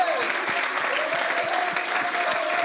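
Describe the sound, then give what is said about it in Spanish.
An audience applauding during a church service, dense and steady clapping from many people, with a held tone running beneath the claps. “Would you honor God with your hands and your voice? Honre al Señor con su voz y con su aplauso.”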